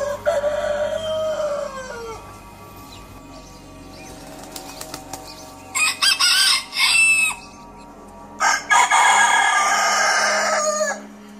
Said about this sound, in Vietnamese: Nằm ngủ một lúc thì mình bị đánh thức bởi tiếng gà gáy. Tiếng gáy nhỏ nhưng rất chói tai.